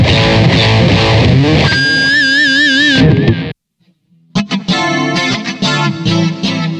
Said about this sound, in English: Okay, I've got my RC50 on the floor. And also, I've got a Boss GT8. The GT8 is full of guitar sounds. So what I'm going to do here is just select some guitar sounds.